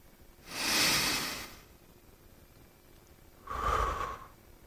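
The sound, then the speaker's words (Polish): Slow, breathy rushes of air during a relaxation breathing exercise come as two soft breaths, the first longer, separated by a quiet pause of a couple of seconds. “Wydycham. Chwilę to potrwa. Muszą państwo być cierpliwi. A na wydech rozluźniam.”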